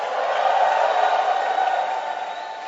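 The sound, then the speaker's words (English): Church audience clapping hands and shouting to the Lord, a dense, steady crowd roar of cheering voices that holds throughout without a break. “I think you can clap your hands much better. And you can add a shout unto the Lord.”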